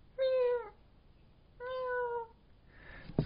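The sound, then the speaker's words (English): Two kitten-like, meow-sounding calls from a K pod killer whale, each a harmonic tone lasting about half a second, separated by a short pause. A faint, breathy burst follows the second call. “The K pod's interesting that almost everybody who hears it says, "Oh, that sounds like a kitten."”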